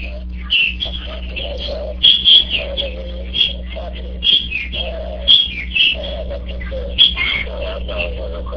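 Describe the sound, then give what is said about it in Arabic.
Sparrows chirp loudly in quick, high bursts that repeat many times. A steady low hum runs underneath. “صوت العصافير عالي جدا جدا جدا”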